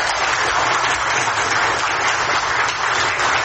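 Applause fills a courtroom after a decision to release a detained man: dense, continuous clapping from many people, steady and loud throughout, with no pauses.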